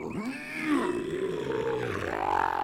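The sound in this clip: A big lion roars in one long, rumbling, continuous growl whose pitch wavers up and down, loud throughout with no voices.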